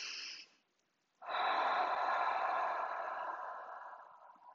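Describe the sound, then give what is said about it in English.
A deep breath in through the nose, taken as a calming exercise: one long, soft, airy inhale lasting about three seconds that slowly tapers off. A brief fainter breath sound and a short silence come before it. “if we could all just right now in this moment take a nice deep inhale and just pay attention to how this feels.”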